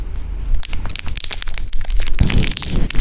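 Crinkly crackling of an unopened package being handled and squeezed, a dense, continuous run of sharp rustles and crunches that grows louder and fuller toward the end.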